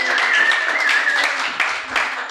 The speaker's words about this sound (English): Never had applause just for walking before.